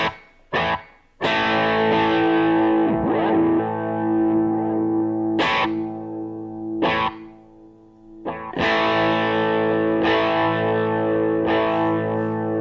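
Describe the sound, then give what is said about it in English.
Guitar played through a SONICAKE reverb and delay pedal: several strummed chords ring out with long, shimmering sustain and echoing repeats that trail between strikes. No one speaks. “you can go from like a room, from like reverb to like actual repeats.”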